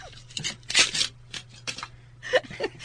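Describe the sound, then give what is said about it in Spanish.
Paper wrapping being cut off a bottle as it is opened, a series of crisp rustling and scraping bursts separated by short pauses. “Ostras, ¿cuánto papel tiene la botella? Aquí vas a cortar mucho, ¿eh?”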